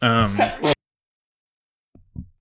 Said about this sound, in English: I sneezed, and when I sneeze, it sounds like it's like the earth opening up.